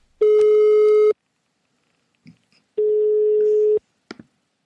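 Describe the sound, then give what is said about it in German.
A telephone ringback tone plays while a call is placed: two long, steady, even-pitched tones separated by a quiet pause, with a few faint clicks in between. “Ich glaube, ich muss mal wieder meine Mutter anrufen.”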